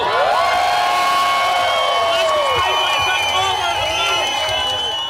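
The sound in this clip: A crowd cheers at the Glasgow Pride parade, marking 25 years of marches. High whoops and shouts ride over a dense, sustained roar of many voices, loud from start to finish.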